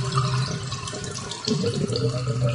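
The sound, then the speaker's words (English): Water runs down household drains in a continuous, rushing, gurgling flow with no voices. “Is that what you hear from your drains?”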